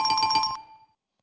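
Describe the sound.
Double bells ring as a quick run of bright, clear strikes that blend into a brief shimmering decay and then fall silent.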